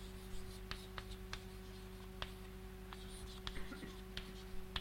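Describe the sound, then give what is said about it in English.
Faint scratchy strokes of hand drawing on a board as a diagram is sketched during a mathematics lecture: a few short taps and scrapes spread out over a steady low hum. “And so let me draw this.”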